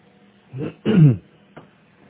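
A person clears their throat, with two rough, low bursts in quick succession followed by a faint short one. No talk is heard.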